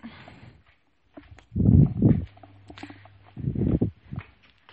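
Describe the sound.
Footsteps climbing the stairs at home make two bursts of heavy, thudding steps with a low hum between them.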